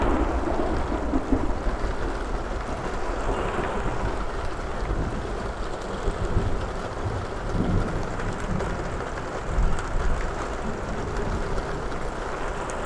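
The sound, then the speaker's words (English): Thunder rumbling during a thunderstorm, a continuous low, rolling roar with steady rain hiss and wind noise, without distinct sharp cracks. “The thunder is getting closer and closer to us.”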